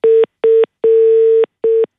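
Telephone dialing tones while placing a call again: four loud, clean beeps at the same pitch in a short, short, long, short pattern, separated by brief silences.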